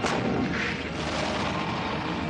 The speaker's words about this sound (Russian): Тщательно целясь, стреляет Борзых.